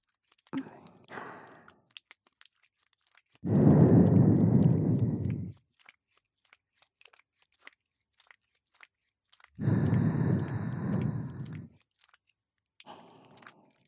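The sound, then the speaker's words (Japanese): Breath is softly blown into the ear in two long, airy puffs of about two seconds each, separated by near silence broken only by a few faint small rustles. “どう？お耳ふうふうされるのもいいでしょう？”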